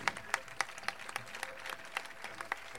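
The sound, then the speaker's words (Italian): Fairly faint applause at a poetry event, with distinct individual claps standing out at intervals over a softer clapping background. “Un applauso a Michele Botrugno,”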